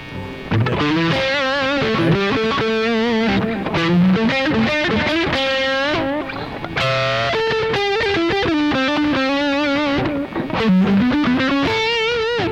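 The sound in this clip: Distorted electric guitar through an amp simulator with the speaker emulator switched off, voiced like a Friedman amp. Loud, continuous, buzzy chords and riffs play with no talking.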